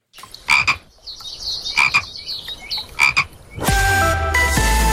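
Common frogs croaking in a few short, rasping grunts spaced roughly a second apart, with high chirps between them, before a loud steady tonal sound takes over at the end.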